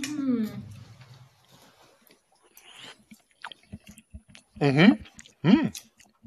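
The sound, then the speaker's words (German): Moist chewing and small clicking bites of a freshly tasted dish with a crust on the bottom, with a voice briefly at the start and short vocal murmurs between mouthfuls. “Nee, aber jetzt probiere ich schon mal. Also. The moment of truth. Zumindest mal. Also. Ah ja, man merkt es auch, wenn man reinsticht, dass da unten eine Kruste ist.”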